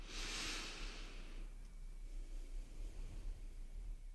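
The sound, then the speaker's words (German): A nervous person takes a short breath before speaking: a soft, breathy hiss fills the first second and a half, then fades into faint low background noise. “Ich atme noch mal kurz.”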